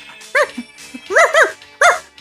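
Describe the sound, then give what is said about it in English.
A dog barks four times in short, high, yelping bursts separated by brief pauses. The barks are clear and stand alone with no talk over them. “And this is my dog.”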